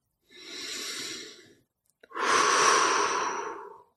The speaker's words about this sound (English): Just breathe. Take a few deep belly breaths.